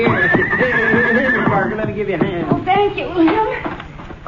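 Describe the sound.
A riding horse whinnies loudly while its hooves clip-clop in many uneven steps as the rider dismounts. People talk over the animal.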